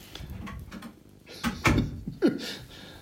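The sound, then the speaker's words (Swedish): A door being closed, heard as a few short thuds and clicks over low, steady background noise. “Förlåt, jag stängde dörren.”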